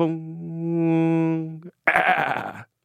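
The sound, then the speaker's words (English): A voice imitates a goat call: a long, steady sung note, then, after a brief pause, a short, rough, bleating cry. “But literally it sounded exactly like what we know and love, but with a goat call at the end. And they seriously considered it. So it literally sounded like,”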